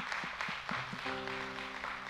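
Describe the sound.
Faint audience applause for dads at a Father's Day morning gathering, a soft steady patter of clapping with sustained musical tones entering midway and continuing underneath.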